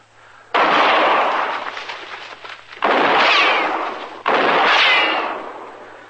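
Three loud gunshots in a radio drama, each a sudden booming blast followed by a long, slowly decaying rumble, spaced a couple of seconds apart.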